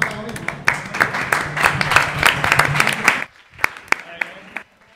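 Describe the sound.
Audience clapping at a live show fills the room with busy, uneven claps and voices mixed in, then stops abruptly partway through, leaving only a few scattered claps afterward.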